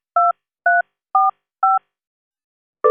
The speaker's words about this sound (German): Ihre Kontonummer bitte. Sie können sie sagen oder eintippen.